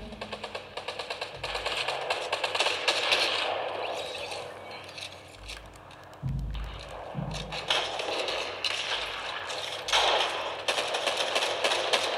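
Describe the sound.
Pistol shots ring out in a video game, a rapid series of many cracking reports in bursts, with scraping and thudding noises between them.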